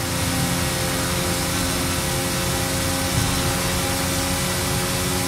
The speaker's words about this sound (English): Did you hear that? Well, that is the last inbound cargo flight racing neck and neck with an AMG 1.